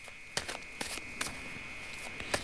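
Tarot cards being shuffled give several faint, crisp flicks and snaps spaced irregularly over near silence.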